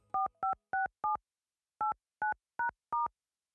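Touch-tone keypad beeps as a telephone number is dialed: eight short, clear tones in two groups of four, separated by a brief pause, with no voices.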